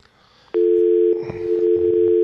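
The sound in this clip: Telephone dial tone before a call: one steady, continuous, loud single-pitched tone lasting nearly two seconds. Faint rustling sounds beneath it in the second half.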